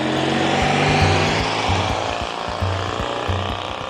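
A Citroën 2CV on a winding road in 1960s Réunion gives a loud, steady engine drone with a buzzing tone and regular low thumping pulses, holding fairly even throughout with no voices.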